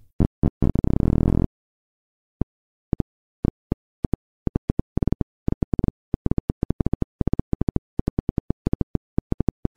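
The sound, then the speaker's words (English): Crackling electrical pops of itch-sensing nerve cells firing, picked up by very fine electrodes touching the edge of the cell membrane. A dense, rapid buzz of spikes at the start gives way to sharp, irregular clicks separated by silence. “we could hear those neurons firing much, much more rapidly. They could listen for hours before hearing anything. Listening for sounds like this.”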